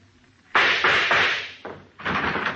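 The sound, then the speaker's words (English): Gunshots fired at a door lock: several loud, sharp bangs in quick succession, each with a ringing decay, and a short pause before the last. “I heard the shot.”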